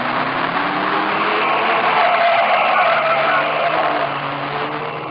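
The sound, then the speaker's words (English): A car accelerating as the driver steps on the gas, heard alone as a steady, full engine roar that swells slightly midway and eases a little toward the end. “I stepped on the gas.”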